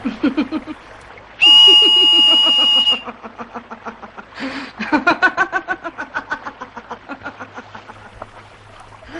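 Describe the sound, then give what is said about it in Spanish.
A sustained, buzzy whistle blown through a crab shell holds a steady pitch with strong overtones for about a second and a half, standing out loudly before softer, rapidly pulsing sounds continue. “sopla a través del caparazón de un cangrejo emitiendo un silbido.”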